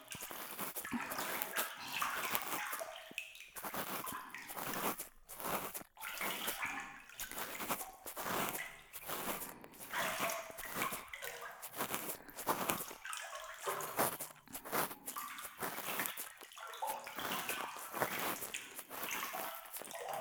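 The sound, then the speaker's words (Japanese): Hot water is poured during an ear-cleaning session, a faint, continuous splashing trickle with small irregular drips and gurgles that carries on steadily for the whole stretch, with no voices. “冷えてきましたか？お湯、かけてあげますね。”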